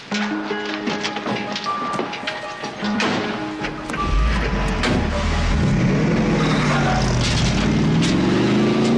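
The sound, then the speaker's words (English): A car is driven off in a hurry. A few sharp knocks and clatter come first, then the engine revs loudly with a rising pitch through the second half as it accelerates. “Come on, we have to hurry. What's going on? I'm driving.”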